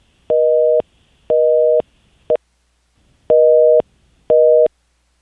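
A telephone busy tone after a caller's line has dropped: evenly spaced, steady mid-pitched beeps pulse on and off in a regular rhythm, with four full beeps and one clipped short one, and no talking.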